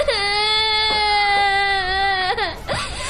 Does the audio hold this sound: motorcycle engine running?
no